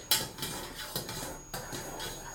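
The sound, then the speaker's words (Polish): Faint scraping of a spoon stirring semolina into hot milk in a pot. A few soft, rhythmic strokes against the metal. “wsypuję sobie pierwsze dwie łyżki kaszy i zaczynam mieszać”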